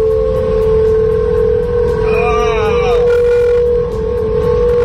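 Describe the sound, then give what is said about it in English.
The Golden Gate Bridge hums in the wind, a steady, loud, moaning drone holding one pitch with overtones above it. It continues unbroken for the whole stretch. “The Golden Gate Bridge is now singing, and it's making noise. Moaning. Yeah, and so it was noticed early in April, and now everybody that crosses it, when the wind picks up, is recording it, and it sounds like this.”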